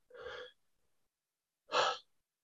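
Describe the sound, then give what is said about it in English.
Two deep breaths taken during a self-control coaching exercise with a client: two breathy bursts of about half a second each, separated by a pause of over a second, with the second breath louder. “let's take a couple deep breaths because I think we can solve this. Here we go.”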